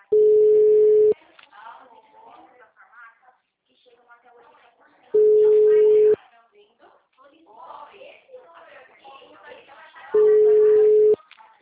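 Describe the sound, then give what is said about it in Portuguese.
Steady telephone line tones sound while a call is being placed: three identical one-second beeps at a moderate pitch, evenly spaced about four seconds apart, with faint talk in the gaps. “Vou ligar lá.”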